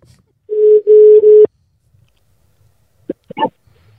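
Telephone tone during a phone call: a steady mid-pitched tone split into a few segments by short gaps, then stopping abruptly. A few brief, faint sounds follow after a pause.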